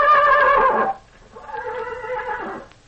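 Tarzan, cowboy star Ken Maynard's horse, neighs twice: a loud, shrill whinny, then after a short pause a longer, lower, quavering neigh.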